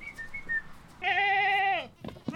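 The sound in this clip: Goats kept as living weed eaters in a sparse, drought-tolerant yard bleat; one loud, wavering bleat of almost a second stands out, with faint higher calls before it and quieter noises after.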